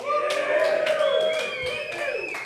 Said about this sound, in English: Can we get a show of hands or a bit of a cheer? Who's going for the Eagles this year?